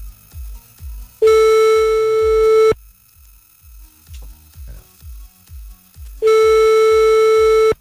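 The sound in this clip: Telephone ringback tone during an outgoing call: two long, buzzy steady tones separated by a pause of several seconds, with faint rhythmic ticking underneath throughout.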